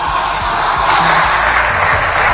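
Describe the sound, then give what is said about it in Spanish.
Ovation and applause from the Socialist benches in parliament, a dense, steady wash of clapping and crowd noise that holds at an even, loud level throughout. “La ovación y los aplausos son de la bancada socialista”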